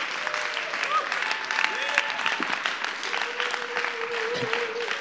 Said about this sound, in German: Lass uns ihn mit einem Riesenapplaus begrüßen bei uns in der K21.